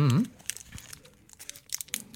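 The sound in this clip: Crinkling of a tiny square paper muffin cup wrapped around a piece of champagne-filled dark chocolate. A short vocal sound opens, then come a few light, crisp paper crackles and rustles.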